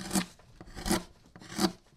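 Wood is filed by hand in a stringed-instrument workshop, giving three even rasping strokes at a steady rhythm, each a gritty scrape that swells and fades, quiet and alone.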